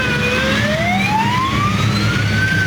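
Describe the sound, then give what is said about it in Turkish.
Fire engine sirens wail while responding to a blaze at a four-storey furniture store, their steady tones gliding slowly upward in pitch over a loud, continuous engine rumble. “Bölgeye çok sayıda itfaiye sevk edildi.”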